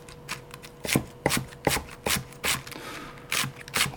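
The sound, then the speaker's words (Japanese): Knife shredding lettuce into thin strips for taco filling, a quick, regular run of crisp cutting strokes, each a short crunchy snap, repeated many times at an even pace with no talk. “まず具材になるものをカットしていくんですけどレタス、はい、レタスを細切りにします”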